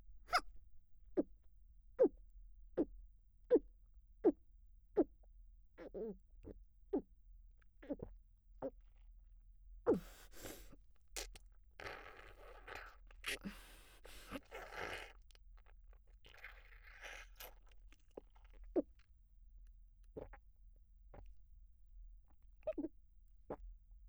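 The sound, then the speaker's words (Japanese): A drink is chugged in one go: a long, steady series of soft gulping swallows at a regular pace, broken by a stretch of rustling noise before sparser gulps return. “指揮官様、ちゃんと飲んであげるから、しっかり見ててよ。じゃあ、せーの。”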